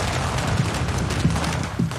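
Firecrackers go off during a traditional Chinese family blessing ritual: a dense, loud, continuous crackle of many rapid pops, with a few sharper bangs standing out from the steady barrage.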